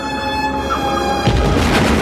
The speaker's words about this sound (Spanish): El Dodge salta por los aires.